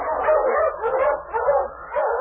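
Huskies bark and yip on a snowy trail, giving a few overlapping bursts of mid-pitched barks and whines at moderate volume.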